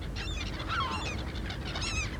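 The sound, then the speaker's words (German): A pet parrot gives a few harsh, honking calls, faint against a steady background hiss. No voices are heard. “Yes, Kay is a parrot. And Kay does what birds do.”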